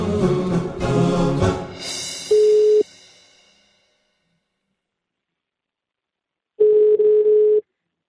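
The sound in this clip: A radio station places a telephone call: after a brief opening sound, a short steady ring tone sounds, followed by several seconds of silence and then a second, longer ring tone.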